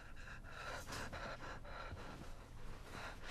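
Short, panicked breaths and gasps from a man backed against a wall in fear: rapid, ragged, breathy bursts following one another continuously, with no talk.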